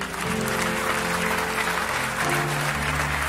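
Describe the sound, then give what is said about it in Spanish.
Applause from a church audience, a thick, continuous patter of many hands that holds steady and fairly loud, with sustained low instrumental tones running underneath. “Den un aplauso a Dios por ello.”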